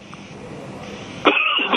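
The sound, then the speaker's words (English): A harsh, loud cough from someone with something caught in the back of the throat bursts out near the end, after a quiet, faint background. “Excuse me, Graham, sorry. You mean start again, Yanni? No worries. Just get something caught in the back of my throat.”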